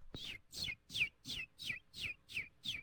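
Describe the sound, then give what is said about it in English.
A voice imitates a bird chirping: seven quick, bright chirps, each a high whistle sliding downward, repeated in an even rhythm and fairly loud, with no other sounds. “chirping. That's a pretty good bird.”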